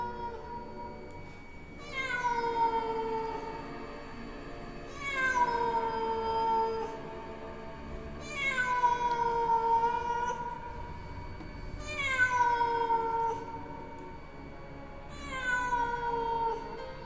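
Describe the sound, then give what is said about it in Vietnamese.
Stray cats meow on rooftops: five drawn-out, tonal cries spaced a few seconds apart, each sliding downward in pitch before trailing off over a low background hum. “Ở trên những mái nhà, có tiếng những con mèo hoang bắt đầu kêu lên như đang gọi bầy”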